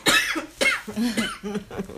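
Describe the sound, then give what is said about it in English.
Coughing from a tickle in the throat: a few harsh, rough coughs mixed with throat-clearing, loud and close together. “Oh, excuse me, I have a tickle in my throat.”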